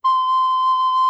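A wind instrument sounds a single note C, fingered as for A with the first finger lifted: one pure, high, flute-like tone held steady and loud for about a second, alone.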